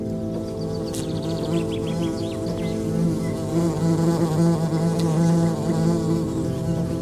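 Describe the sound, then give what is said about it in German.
A cluster of wasps buzzes steadily around a fig lying under a fig tree, a dense, continuous droning hum with no pauses and no talk. “Die Wespe, die sich der Herr gerade mit seinem Stock vom Leib gehalten hat, gesellt sich zu einem Wespenpulk, der gerade eine Feige unter dem Feigenbaum zerfleischt.”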